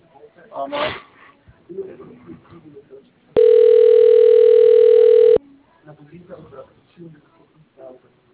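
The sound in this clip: A steady telephone tone sounds for about two seconds while a call is placed: one unbroken, even hum, with people talking before and after it.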